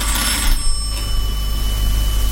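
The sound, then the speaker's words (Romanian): An electric doorbell rings at an apartment door in the evening: one steady, bright, buzzing ring that lasts about two seconds, slightly stronger at the start, with no other sound. “A doua zi, spre seară, doi indivizi cu pardesiuri negre și pălării de fetru au sunat la ușa doamnei Hirsch, proprietara imobilului în care locuia Ole Anderson.”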